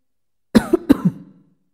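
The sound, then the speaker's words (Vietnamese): A dry cough from an old man: two short, harsh bursts close together that trail off quickly into silence. “Lâm Thương Lan ho khan một tiếng nhưng không gọi nàng đứng dậy.”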